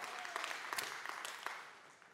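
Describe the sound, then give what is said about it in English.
Audience hand clapping, a steady, dense patter of many hands at fairly low volume that eases off toward the end. “you guys are stealing all my time with your hand clapping”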